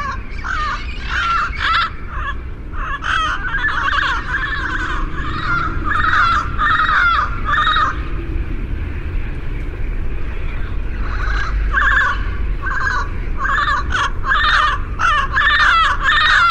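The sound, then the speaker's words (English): A flock of feral parrots, descended from escaped pets of a kind endangered in Mexico, squawks in loud, harsh, rapid, overlapping calls. The calls ease briefly midway before the raucous chorus resumes. “The parrots are endangered in Mexico, but this flock likely descended from escape pets that flew the coop.”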